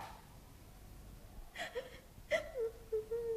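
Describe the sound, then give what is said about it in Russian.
A girl cries. After a quiet stretch come two sharp, gasping sobs, then a wavering, whimpering moan that rises and falls in pitch, with further catching breaths. “Что такое? О чем вы плачете, Алели?”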